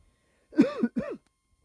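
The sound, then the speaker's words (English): Two harsh, throaty coughs in quick succession from a person fighting a cough. The first has a double push, and both stand alone against near silence. “I apologize for my coughing and if I start having some issues talking. I'm trying to fight this cough”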